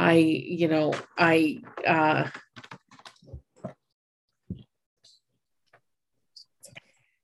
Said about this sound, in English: My cat is being a pain in the ass. Sorry. That's why I paused, because she was stomping on my keyboard.